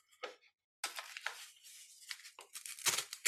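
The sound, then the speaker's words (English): Paper being torn up in a few short, crisp ripping and crinkling bursts separated by brief pauses, fairly faint and bright. “I invite you to tear it up.”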